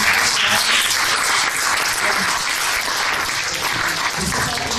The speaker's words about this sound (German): Und dafür auch nochmal Applaus.